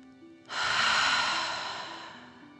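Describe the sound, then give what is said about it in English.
Deep breath taken during a children's relaxation exercise with 'dragon breaths' blown out through the mouth: one long, airy, rushing breath rises sharply, then slowly fades over a couple of seconds, heard alone. “Again, deep breath in and out.”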